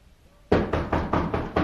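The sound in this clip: Knocking on a door: six quick, evenly spaced knocks start abruptly after a brief quiet moment, each one loud and sharp, with no voices over them.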